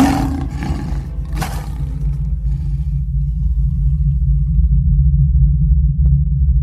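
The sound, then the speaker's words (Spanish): Lions roar with a deep, sustained, growling rumble that holds strong and low for several seconds, after a few brief noisy bursts at the start. “Se oyeron entonces los ruidos. Los leones.”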